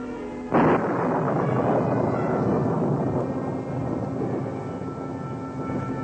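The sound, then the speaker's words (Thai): Thunder from a lightning strike over Jerusalem breaks with a sudden loud crack, then rolls on as a deep, sustained rumble for several seconds without fading away. “บัดนี้สายฟ้าแลบจากความพิโรธของพระเจ้าพุ่งตรงมายังกรุงเยรูซาเล็ม”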